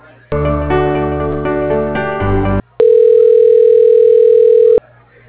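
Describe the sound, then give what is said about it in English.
Telephone line tones play as a call is transferred to voicemail. A loud, buzzy, harmonic-rich tone holds for about two seconds, then a short gap is followed by a steady, pure electronic tone of similar length. No voices are heard. “let me put you through to his assistant's voicemail”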